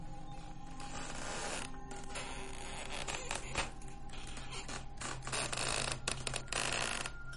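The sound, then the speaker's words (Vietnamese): A creaking, grinding sound runs continuously through the whole stretch. It is gritty and textured, with irregular crackling bursts, holds a fairly even loudness, and has no voices. “Thế nhưng chỉ mấy giây sau, tiếng cót két lại vang lên, làm cho Đăng toàn thân cứng đờ.”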